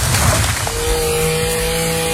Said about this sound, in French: Tronçonneuse.